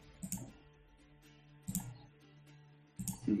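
Three soft computer mouse clicks sound while a character sheet is opened for a wisdom check, spaced roughly a second and a half apart, faint and short over a quiet low hum.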